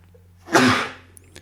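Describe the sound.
A single sharp human sneeze bursts out loud and brief, rising quickly to a peak and then fading, heard alone against near silence.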